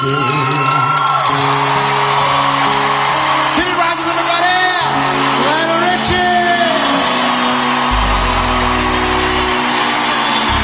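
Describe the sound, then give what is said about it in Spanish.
A live concert audience cheers enthusiastically, whooping and shouting loudly and continuously over sustained music. “han escuchado los gritos de entusiasmo del público”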